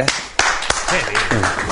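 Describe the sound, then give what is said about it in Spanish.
A few sharp hand claps from a news presenter applauding as he rises from his desk in a television studio, the crisp slaps punctuating a speaking voice that carries on over them. “Y Amaro comienza a aplaudir. Se para de su escritorio.”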